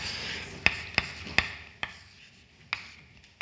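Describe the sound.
Einstein's equations are written out by hand in a lecture, heard as five sharp tapping strokes, spaced unevenly, with quiet scratchy rubbing between them and no talk.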